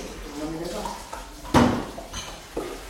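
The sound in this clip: A frying pan is picked up and handled with one sharp metallic clank, then a softer knock, amid people talking.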